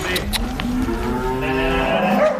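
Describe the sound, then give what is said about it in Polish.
Cows moo for feed as grain meal arrives, a few long, low, overlapping moos that hold steady and loud, with faint clicks early on. “zaczną krowy tam muczeć, czy że chcą tą paszę jeść.”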